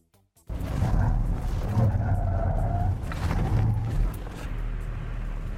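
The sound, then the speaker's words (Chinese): Engine roar from a car driven fast through a cone lane-change test at about 66 km/h, brushing one cone; a sudden onset into a sustained, loud engine and tyre drone that carries on unbroken. “这下应该已经到了这个车的极限了。我们过第三个变线的时候，已经轻轻刮了一下桩筒”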